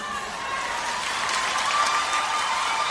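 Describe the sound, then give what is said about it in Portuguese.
An audience breaks into sustained applause, a thick, continuous wash of many hands clapping that holds steady and swells slightly toward the end of its three seconds. “outra salva de palmas.”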